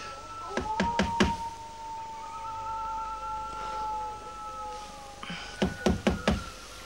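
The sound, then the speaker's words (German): Knocking on an open front door: four sharp raps, a pause of several seconds, then four more raps, with a steady tonal drone underneath. “Die Haustür ist ja offen. Stimmt. Ach, trotzdem klopf lieber an”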